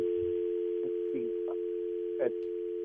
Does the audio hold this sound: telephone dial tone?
yes